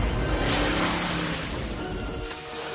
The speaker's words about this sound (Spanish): Los coches circulan pisando agua.